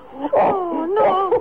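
A woman cries in a wavering, high-pitched wail, with two drawn-out sobbing moans whose pitch bends and quivers, loud and with no other talk.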